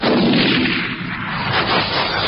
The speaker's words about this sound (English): Shotgun.